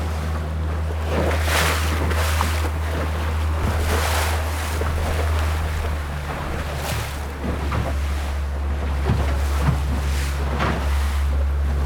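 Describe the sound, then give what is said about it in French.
A small boat on a coastal voyage: a steady low drone runs throughout, with water washing and splashing against the hull and gusts of wind buffeting the microphone. No one speaks. “Ah, j'aime ça, ce son de cabotage.”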